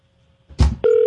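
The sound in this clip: Ringback tone on an outgoing phone call: a short thump, then a steady, mid-pitched electronic tone starts and holds to the end.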